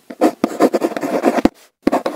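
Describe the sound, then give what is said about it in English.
Pen strokes scratch across paper as someone writes a love letter on Valentine's Day, many short, quick rubbing strokes in uneven bursts, with a brief pause before the writing resumes. “Someone writing a love letter on Valentine's Day.”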